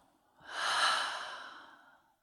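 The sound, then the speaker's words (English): A deep breath exhaled through an open mouth: one long, breathy rush of air that swells quickly, holds, then slowly tapers off over about two seconds, alone without talk. “let's take another deep, great breath. Open mouth, let it go.”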